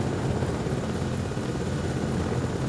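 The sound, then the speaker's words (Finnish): A medical helicopter approaching to land on a rooftop makes a steady, broad engine drone with faint, regular rotor thumps throughout. “Se toi mediheli tulee tuohon. Ai se on se mediheli, odotellaan hetki. Joo. Niin, mutta se laskeutuu tuohon, joo, tuonne katolle.”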